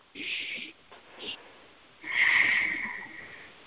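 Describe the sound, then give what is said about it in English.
Deep breath drawn during a guided healing meditation, a long, airy, fairly loud inhale that follows a few fainter, shorter sounds. “If you would like to receive it, say yes. Yes. Yes. And take a nice deep breath.”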